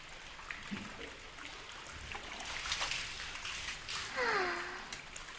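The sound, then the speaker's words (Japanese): Hot spring water flows in an outdoor bath at an inn, a steady broad wash of trickling and running water with a few slightly louder surges and splashes throughout. “立派な露天やろ。なんて言ったってうちの旅館の名物やからな。”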